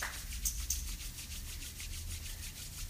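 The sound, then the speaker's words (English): Palms rub briskly together to generate heat, producing a faint, rapid, rhythmic swishing of skin on skin that repeats steadily throughout. “Rub your hands together and make some heat.”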